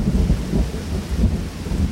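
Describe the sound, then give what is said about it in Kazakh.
Heavy pouring rain beats on a small tent in strong wind, forming a loud, steady, dense roar with a deep rumbling undertone and no voices. “Шелектеп теуіп тұрғандай. Өткін жаңбыр екен.”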